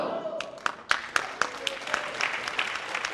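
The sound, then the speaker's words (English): Former Black Panthers cheering at a reunion in an Oakland community center: sharp, scattered claps ring out over a dense wash of shouting and cheering voices. “Dozens of former Panthers sent up some of the party's trademark rallying cries as they welcomed speakers from across the U.S.”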